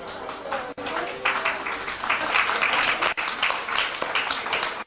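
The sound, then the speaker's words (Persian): Audience applause, mostly from the women in the crowd while the men hold back. The dense, even patter of many hands continues steadily for several seconds. “شما چه بس خودتون دست میزنی؟”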